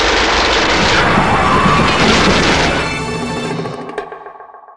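Heavy gunfire as soldiers open fire, a loud, dense continuous roar of shots lasting about three seconds before thinning out and fading away with a ringing tail.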